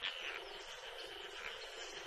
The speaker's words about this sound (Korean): 요란한 개구리 울음소리가 고요한 새벽을 깨우네요.